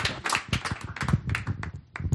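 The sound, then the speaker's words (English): Lecture audience applauding a visiting speaker: quiet, uneven hand claps in a scattered patter with brief gaps. “So let's give a round of applause to our visitor from Montana.”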